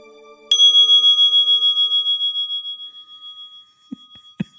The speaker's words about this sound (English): recognize that sound. And yes, that is the sound of the singing bowl.